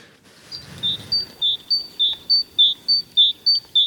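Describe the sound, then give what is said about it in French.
A small tit sings in springtime: a clear, high, steady song of about a dozen short whistled notes alternating between a higher and a slightly lower pitch in an even, repeating two-note rhythm. Faint low background noise runs beneath, with no voices. “Oui, c'est la petite mésange. Voilà. C'est printanier.”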